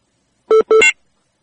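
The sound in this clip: Electronic telephone tones as a call is dialed: two short buzzy beeps in quick succession, the second slightly longer, heard alone with silence before and after.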